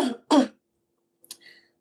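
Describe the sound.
Throat clearing in two short, gruff bursts close together, followed by quiet and a brief faint rasp, with no talk.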